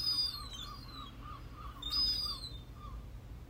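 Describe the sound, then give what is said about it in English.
High, whistling calls from a baby gull approaching on garden decking come in two short bursts, with softer repeated chirps between them over a low background rumble. “This is the sound of one of the baby gulls coming towards me.”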